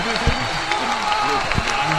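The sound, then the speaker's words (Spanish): A studio audience applauds, with steady dense clapping throughout and voices talking over it. “Bravo, bravo, mirá cómo aplaude la gente, está como loca.”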